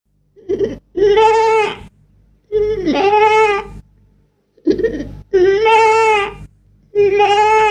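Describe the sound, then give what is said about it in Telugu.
A goat bleats in a series of several long, wavering, high-pitched cries with short pauses between them. The bleats are loud and stand alone, with no talking. “ఇప్పుడు మేక.”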